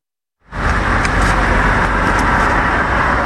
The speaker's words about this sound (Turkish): Yollarda uzun araç kuyrukları oluştu.